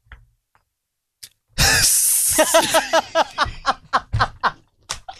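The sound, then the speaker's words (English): A person imitates a hiss with a loud, breathy burst of noise, then a run of quick, sharp pulses that fade in and out. “Straight hissed you, bro. I straight hissed him, bro. I fucking hissed him.”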